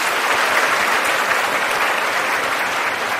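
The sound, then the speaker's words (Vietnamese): An audience applauds a professor at a televised event: dense, even clapping from many hands, loud and steady from start to finish with no voices standing out. “xin quý vị hãy cho giáo sư một tràng pháo tay nữa”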